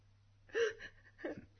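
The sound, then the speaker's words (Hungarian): A person sobbing during a tense argument between spouses about divorce: two short whimpering, gasping sobs, the first louder and longer, the second briefer, with no speech. “Most mit sírsz?”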